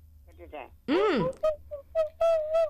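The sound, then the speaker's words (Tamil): A whistle sounds in a sound-guessing game, giving a few short, clear, steady-pitched blasts, the last one held longer. “அது whistle சத்தம்.”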